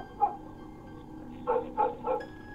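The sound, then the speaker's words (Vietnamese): Dog barks ring out on a village road: one short bark, a pause, then three more in quick succession, all moderately faint against a quiet background. “Ở trên con đường làng có tiếng chó cắn ma vang lên nhông nhổng nhông nhổng.”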